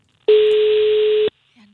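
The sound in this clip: Ringing tone of an unanswered telephone call, a single steady beep lasting about a second at a low-mid pitch, followed by a brief faint tone.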